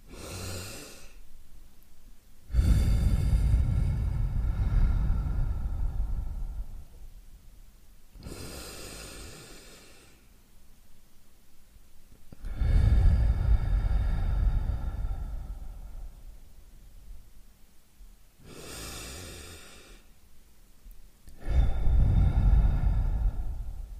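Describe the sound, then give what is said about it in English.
Three slow, deep breaths taken at an open window in the morning, each a long, loud, rushing inhale followed by a softer, airy exhale, evenly spaced and alone. “take three breaths. So something like this.”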